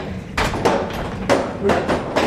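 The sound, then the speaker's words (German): Heavy stamping hammers in a paper mill, lifted by a gear-driven camshaft, pound with several dull, broad thuds at uneven intervals over a constant mechanical rumble. “Und in das Holzzahnrad tue ich jetzt das Gegenzahnrad gerade einkuppeln, so dass unsere Daumenwellen dann von davon laufen und durch das die Hämmer bewegt werden”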